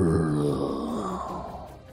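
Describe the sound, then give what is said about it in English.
A zombie's low, drawn-out groan, a single voiced moan lasting about two seconds, strong at first and slowly fading and sagging in pitch toward the end. “you are about 30 feet from your cabin when you hear a groan.”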